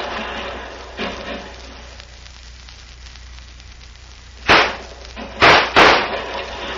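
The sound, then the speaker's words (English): Gunshots in a shootout ring out as a few sharp, loud bangs over a constant hiss. One fainter crack comes early, and several louder reports cluster close together near the end. “Bullets from all sides, and Senor Bucktooth and I are right in the middle.”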